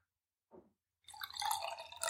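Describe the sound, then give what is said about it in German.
The last of a day-old bottle of beer is poured out, first a single faint drip, then a short soft splashing pour that runs to the end. “schenk mir nur was ein. Oh, schon leer. Ja, Das ist die Flasche von gestern.”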